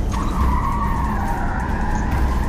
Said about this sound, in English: he is driving down a two-lane road. Seeing no one around, he turns onto a half-hidden one-lane road.